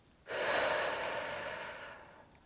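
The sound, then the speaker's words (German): A single deep, slow breath taken during a guided relaxation exercise: one soft, airy rush of air that starts suddenly, holds for about two seconds and then fades gently away. “Atme nochmal tief ein und aus.”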